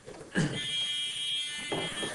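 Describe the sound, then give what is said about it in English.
A small buzzer sounds a steady, fairly quiet electric drone for over a second, set between short soft knocks at its start and finish. “I got a buzzer.”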